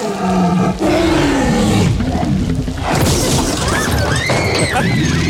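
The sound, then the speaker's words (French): A T-Rex roar effect built from slowed-down baby elephant, alligator and tiger sounds. A deep, falling, bellowing roar gives way to higher trumpeting cries that rise and fall, with harsh crashing bursts between them. “Il a ralenti plusieurs bruits d'animaux, que ce soit le bruit d'un éléphant bébé, à un alligator, à un tigre pour donner la vie au T-Rex.”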